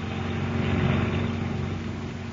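A motor launch runs with a steady, low engine drone and propeller churn, even in level and unbroken, with no voices.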